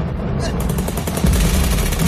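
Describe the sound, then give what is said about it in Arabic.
Recorded gunfire, bombs and explosions play as a sound effect during a rehearsal of a dramatic scene: a dense, continuous barrage of rapid shots and blasts that grows louder partway through. “بتحط بلاي بيطلع صوت رصاص وقنابل وانفجارات”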